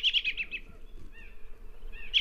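A robin calls alone, opening with a quick run of about five high, bright chirps, followed by a few softer whistled notes, then one more sharp chirp at the end.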